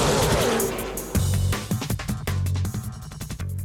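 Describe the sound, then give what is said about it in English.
A racing car engine starts with a loud, broad roar, surging in several sharp bursts and revs before settling into a rough, uneven drone. “gentlemen, start your engine”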